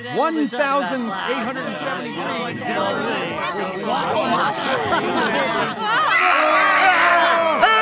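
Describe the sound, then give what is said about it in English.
Dense babble of many overlapping recorded voices all talking at once, a continuous chaotic wall of chatter that swells slightly louder toward the end. “Prepare to listen to 58 billion podcasts at the same time!”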